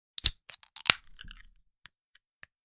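A can of zero sugar soda is cracked open. A few crisp metallic clicks and snaps are followed by a short, soft fizzing release and a few faint ticks.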